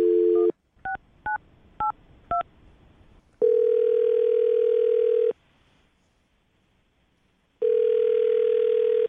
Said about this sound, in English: All right, I'm going to dial the number right now.